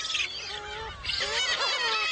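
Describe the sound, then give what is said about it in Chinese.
Noisy squabbling of black-faced spoonbill chicks fighting over food on an island in early summer: overlapping, nasal, honking cries that carry on without a break. “现在是古吉岛的初夏时节，雏鸟们为争抢食物开始了吵闹。”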